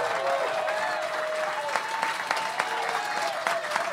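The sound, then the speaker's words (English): Steady applause from a standing audience at a Barnes & Noble event, dense and even clapping with a few sharper claps standing out, continuing without a break. “A standing ovation from our audience at the Barnes & Noble.”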